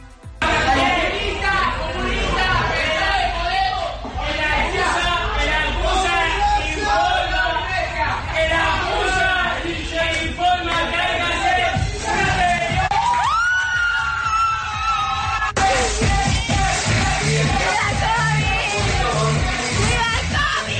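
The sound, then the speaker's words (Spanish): Partygoers in a cocktail bar on a Saturday night shout and whoop loudly over dense chatter. Rowdy yells repeat throughout, and the crowd noise stays loud and continuous. “Un año después del confinamiento, hay quien todavía tiene la poca cabeza de decir viva el COVID. Ocurría en una fiesta en un bar de copas en vecindario el sábado por la noche.”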